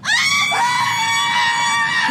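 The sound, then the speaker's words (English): An audience of women cheers and screams together in a loud, high, sustained roar that fills the whole clip. “Ladies, make some noise for Reese Witherspoon.”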